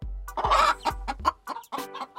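Chickens cluck in a quick, irregular run of short, mid-pitched calls, with several bursts following close together. There is no talk.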